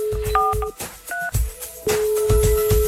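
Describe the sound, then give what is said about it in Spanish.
A telephone number is dialed as a listener is called with a birthday greeting: a few short two-tone keypad beeps sound over and between stretches of a steady, loud dial tone, with no voices. “Aquí estamos marcando a Lucero Andrea Serna.”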